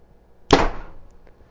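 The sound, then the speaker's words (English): A single arrow is shot from a Bowtech Carbon Icon bow, giving one sharp, loud snap that rings off and fades over about half a second. “Another shot with the Bowtech Carbon Icon.”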